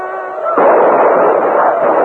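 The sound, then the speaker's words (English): Devastating gunfire in a battle as uniformed riders charge attackers, a loud, dense, continuous roar of rapid shots that holds steady and unbroken to the end after a short quieter opening. “Devastating gunfire broke out.”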